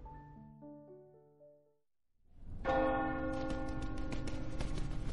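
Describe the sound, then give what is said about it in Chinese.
Bell ringing out in the morning at a refuge settlement, signalling the start of the workday. Soft stepped tones come first, then after a brief quiet a loud, sustained clanging peal with rich, lingering overtones takes over. “次日清晨，避难壁垒里的钟声骤然敲响，似乎在提醒所有人该去厂子里干活了似的。”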